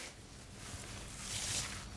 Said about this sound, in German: Oh, das ist ein richtig alter Teppich. Der ist bestimmt 50 Jahre alt. Ich reiß ihn jetzt hier raus